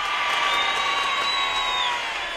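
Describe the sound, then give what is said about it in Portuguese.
A crowd applauds and cheers for a woman, a dense, steady roar of clapping and voices with high whistles running through it for the whole stretch. “Uma multidão de aplausos pra ela!”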